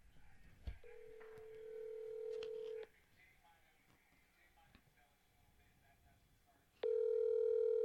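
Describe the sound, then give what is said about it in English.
Phone dialing and ringing over a speakerphone: a steady electronic tone holds for about two seconds, then drops to faint ticking and clicks, before a louder tone starts abruptly near the end. “I should call right now on the air. Call the number back. Do it. It's only 10:30 at night. All right, let's see. Make sure you put Chicago, it on speaker, Illinois, so we can all hear.”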